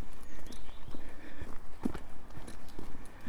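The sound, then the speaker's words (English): Footsteps walking along a clifftop path, a steady quick rhythm of many soft crunching steps, fairly loud and without talk. “Walking along Trelugan Cliff,”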